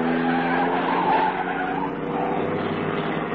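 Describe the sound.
Car tires screech as the car speeds around a corner, with a loud, sustained squeal mixed with engine roar.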